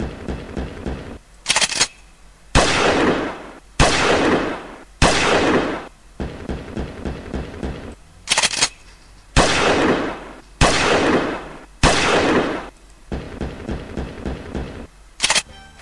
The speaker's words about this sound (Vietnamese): Súng ở đâu nổ lớn quá? Một tràng súng nữa át cả tiếng dạ của Thành.